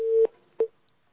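A telephone call-connecting tone: a steady mid-pitched tone that stops abruptly, then one short matching beep, with no voices.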